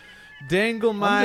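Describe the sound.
Nasal honking bird calls near a barge, a couple of loud, harmonic honks in quick succession after a faint steady tone, with no clear talk.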